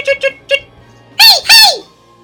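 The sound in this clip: A voice imitates bird chirps during a tabletop role-playing game, giving three short, quick chirps followed by two louder, longer squawking calls that each slide downward in pitch.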